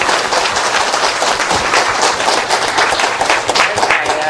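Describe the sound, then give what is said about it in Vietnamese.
Applause at a Buddhist temple gathering: a thick, lively burst of many hands clapping that stays loud and busy for over four seconds. “Một tràng pháo tay.”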